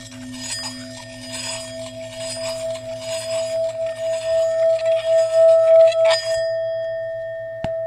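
Three metal bowls, cast from an alloy of seven metals, are struck and ring out together. A steady high note holds over a lower tone that fades midway. A faint shimmer swells and pulses, ending with a sharp tap.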